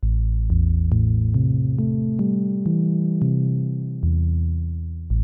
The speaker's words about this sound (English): here's an example of a low pass filter where the cutoff frequency is fairly low, so you have a nice dark tone.